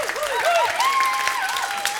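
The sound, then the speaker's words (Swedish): An audience applauds a singer and her band at a live music event. The clapping is loud and sustained, with cheering voices rising over it. “Applåder för henne och bandet också.”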